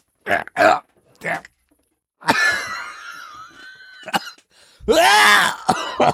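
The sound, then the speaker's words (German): A person coughs and clears their throat after a bit of food came back up, with several harsh, separate bursts and a longer rasping, wheezy stretch between them. “Entschuldigung, jetzt ist mir ein bisschen auch ein Bröckchen hochgekommen.”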